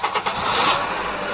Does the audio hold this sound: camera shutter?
no